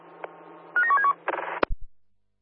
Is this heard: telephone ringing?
yes